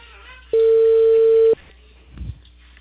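An unanswered telephone call gives a single steady ringing tone lasting about one second, loud and even, followed by quiet with a brief low rumble.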